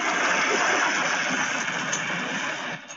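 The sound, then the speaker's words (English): A Titan blowing up in the video game Titanfall: a loud, steady roar of hissing noise that holds for nearly three seconds, then drops off sharply at the end. “I do have the actual sound clip of a Titan getting blown up, though.”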